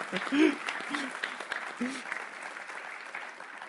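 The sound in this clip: A church audience applauds: a dense, steady wash of clapping runs throughout, with a man's voice speaking over the start.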